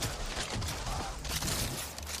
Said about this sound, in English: God, I love the shotgun. This is one of the fun weapons in the game.